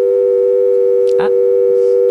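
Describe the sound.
An answering-machine message tone sounds as a steady electronic telephone tone, held unbroken at a mid pitch for about two seconds, with one brief soft click partway through.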